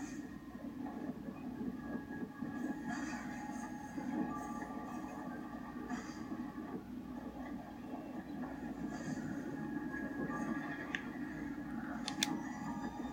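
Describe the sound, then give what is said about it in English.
Steady rumbling rail noise of a roller coaster running on its track in a video game, a continuous low clatter at an even level throughout, with faint higher clicks and squeals scattered over it. “It is a device that propels humans on rails at high speeds for the purposes of amusement. It was commonly referred to as a roller coaster.”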